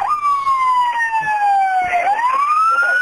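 A fire engine's siren wails loudly and without a break, sliding down in pitch and then rising again. It sounds at a large fire brigade event. No horn is evident.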